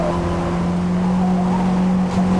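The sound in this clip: A race car engine drones loudly in a racing video game as the car takes corners at full throttle, holding a steady, nearly level pitch throughout without letting off.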